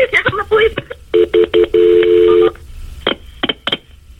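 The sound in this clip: Touch-tone dialing beeps as an emergency call is transferred to EMS: several short, steady two-tone bursts, then one longer sustained tone. Brief voice fragments come before the tones and after them.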